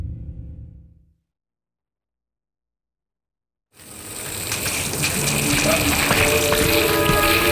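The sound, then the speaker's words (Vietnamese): Water spraying hard from a hose to put out smoke during a rescue, bursting in after a silent pause as a loud, steady hissing rush that continues without a break. “Đừng xịt nữa, Oleska. Như vậy là đủ rồi đó. Hết khói rồi. Cần phải tiết kiệm nước.”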